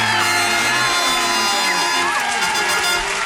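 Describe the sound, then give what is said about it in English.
Studio audience cheering and whooping, a dense, loud wash of crowd voices with shouts and yells rising over it, continuing steadily from start to end. “The studio audience couldn't hold themselves back. Oh, my God. Restrain yourself.”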